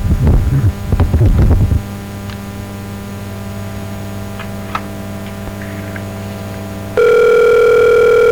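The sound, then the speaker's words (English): A telephone line dials out to a caller. A quick burst of dialing tones comes first, then a long stretch of steady, low line hum, and finally a loud, constant ringing tone starts and holds to the end. “So we're now dialing. Hopefully we'll get this person shortly.”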